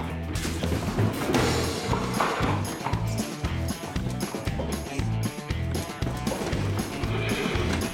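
A horse's hooves clatter through a loud, dense mix during an indoor chase, with many quick, uneven hoof beats and no steady rhythm.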